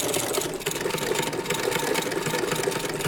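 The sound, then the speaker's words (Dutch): Several sewing machines run together, used for sewing fabric toys. A dense, continuous whirring clatter holds at a fairly even level throughout, with no clear talk. “En dit maken jullie allemaal met deze naaimachines?”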